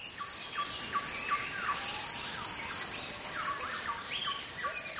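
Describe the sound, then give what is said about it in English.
Borneo jungle ambience with a dense, steady high insect drone and many repeated bird calls and chirps over it, at an even level throughout. “Krauss played a recording he made in the jungles of Borneo.”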